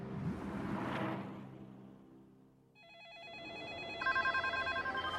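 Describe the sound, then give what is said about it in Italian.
A telephone rings: after a whooshing rumble swells and fades, a warbling electronic ring starts partway through and is joined by a rapid pulsing trill that repeats steadily to the end. “Tim Geithner inizia la sua giornata di lavoro al telefono”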